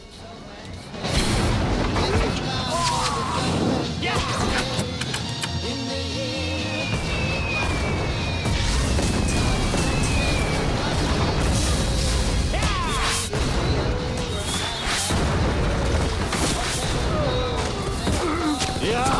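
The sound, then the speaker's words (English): Bombs dropped from a flying stag mount explode on an enemy vehicle: dense, loud booms, crashes and whooshing rushes that continue almost without a break. “Bronco kicks his heels against the stag, which opens a compartment under its stomach, releasing bombs, which land on a Cyclops vehicle.”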